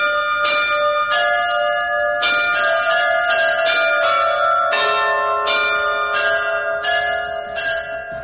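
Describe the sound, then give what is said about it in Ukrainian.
Monastery bells in Kyiv ring out the melody of the Ukrainian national anthem: a clear run of struck bell notes at changing pitches, each with long, shimmering overtones, heard alone. “Дзвони одного із київських монастирів почали грати мелодії українського гімну та відомих”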